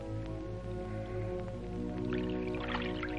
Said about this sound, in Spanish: Se sirve agua.